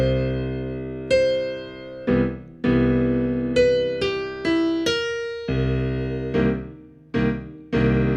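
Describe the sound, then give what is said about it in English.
Piano chords in root position, beginning with C major, struck in a slow comping rhythm as a long string of attacks that each ring and fade, steady and moderately loud, with no voices. “I'm playing a C major root position chord.”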